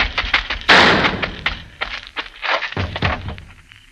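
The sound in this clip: A single loud gunshot rings out as a gun is fired at a man fleeing across a courtyard. The sharp blast has a long, fading tail and is followed by softer, scattered thumps.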